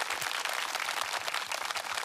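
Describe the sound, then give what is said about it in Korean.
Audience applause welcoming a guitarist at a live performance: a dense, steady wash of many hands clapping, holding an even level throughout with no voices over it. “기타리스트 정재웅님을 큰 박수로 모시겠습니다”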